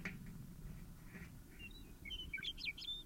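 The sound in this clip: Bird calling with a quick flurry of high, thin chirps in the latter half, faint over a low, steady background rumble.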